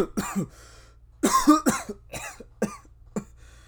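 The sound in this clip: Several rough coughs mixed with throat clearing, in uneven bursts with one denser cluster near the middle, from someone who had something caught in their throat.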